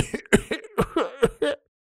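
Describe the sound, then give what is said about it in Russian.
A voice imitates a foolish man's insistent, repeated throat clearing: a quick run of short, voiced hacks lasting about a second and a half, then silence. “И указала на дурня, который вдруг продолжил настойчиво откашливаться, стоило вновь обратить на него внимание.”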